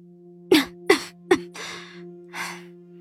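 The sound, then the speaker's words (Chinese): Coughing from a weak, sickly person: three short, sharp coughs in quick succession, followed by two breathy exhales, over a steady low hum, with no speech. “唐新觉咳嗽两声，轻声开口”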